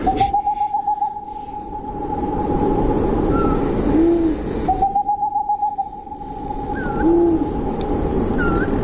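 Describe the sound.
A boreal owl calls in two quick, even runs of low, rapid hoots, each lasting about a second, while another bird adds a few soft, short whistled calls.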